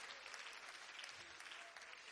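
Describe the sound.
Congregation clapping hands during a church service, a faint, steady wash of applause that holds at an even level throughout, with no distinct single claps standing out.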